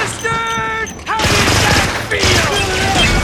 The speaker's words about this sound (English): O'Brien gets out a machine gun and just shoots zillions of holes in the roof of the runabout